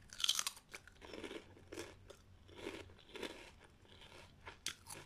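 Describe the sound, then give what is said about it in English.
Crunchy chip being bitten and chewed up close, with many loud, crisp, crackly crunches in quick irregular succession followed by steadier chewing. No talk is heard. “I'm gonna have a chip. ASMR.”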